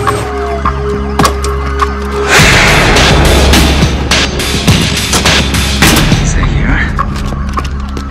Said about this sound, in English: Okay, he's firing. He just shot through his own window.